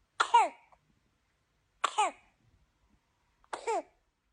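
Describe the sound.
A baby coughs in three evenly spaced bouts. Each bout is a quick pair of harsh bursts with a raspy, voiced tone, separated by silence.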